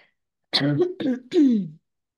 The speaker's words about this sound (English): I still have a little frog in my throat.